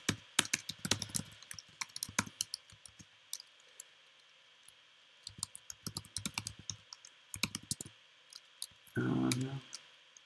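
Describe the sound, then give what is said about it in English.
Someone types a name on a computer keyboard. Faint clusters of quick, crisp key clicks come in several bursts separated by short pauses, and a brief rougher noise follows near the end. “And let's type in my name.”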